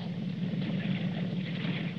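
A motorboat engine drones out on the water, a faint, continuous low hum with a softer buzzing layer above it and no voices.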